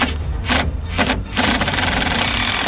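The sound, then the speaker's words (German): Cordless screwdriver driving in the last screws: loud, rough whirring in a few bursts split by short gaps, then a longer steady run to the end. “Wir haben jetzt die letzten Schrauben. Du hast den Akkuschrauber parat?”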